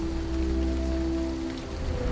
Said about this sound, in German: Regen, Wind und Donnerschlag. Eigentlich Wetter zum Zuhausebleiben.